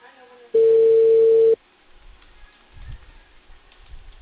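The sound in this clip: A telephone tone while placing a call to a customer about a cable service fault: one steady, loud, even-pitched tone lasting about a second, followed by a quiet line with faint low rumbles.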